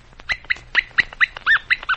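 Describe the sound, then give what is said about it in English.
Puppy barking in a run of about eight high, sharp yips at a quick, fairly even rhythm, each one short and bright, with no talk over them. “in case you don't understand puppy dog language, I'll tell you what he says.”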